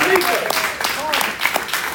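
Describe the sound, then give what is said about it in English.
A crowd gives a round of applause for the Until Freedom group, a steady wash of clapping mixed with voices. “Let's give Until Freedom a round of applause.”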